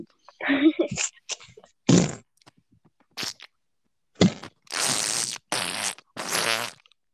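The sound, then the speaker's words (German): Someone blows fart-like noises into a microphone: a few loud, buzzy raspberry bursts, each lasting under a second, come after some short scattered vocal sounds. “Mikro gefurzt, Alter.”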